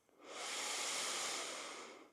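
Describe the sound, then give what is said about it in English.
One deep, full breath drawn in through the nose during a relaxation exercise: a soft, airy hiss that swells in quickly, holds steady for about two seconds, then tapers off. “Let's take a deep, full breath in through the nose.”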